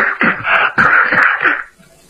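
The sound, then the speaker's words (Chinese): A voice imitates harsh coughing: a rapid run of rasping, throaty bursts from someone choking on smoke in a traditional storytelling performance. It is loud and continuous, then stops abruptly. “这么老半天还咳嗽呢”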